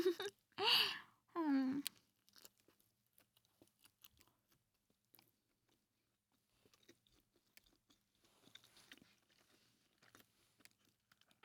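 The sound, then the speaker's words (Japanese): Chewing on a chicken gomoku rice ball, a mixed-rice onigiri: a voice speaks briefly at the start, then faint, irregular mouth clicks and soft chewing sounds follow. “食べてるのも鶏ごもくです。おいしい。”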